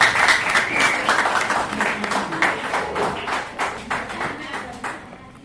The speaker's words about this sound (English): I want to take this chance to welcome Comrade Dick Kabau of the Kenya Patriots Party. Tupige makofi ya kija.